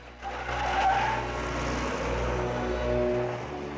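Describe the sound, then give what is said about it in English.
A waiting police car drives away carrying a passenger and two uniformed officers, its engine giving a steady low rumble that swells slightly and holds throughout, with no talk. “Lois gets into the back of a waiting police car. She's driven away by two uniformed officers.”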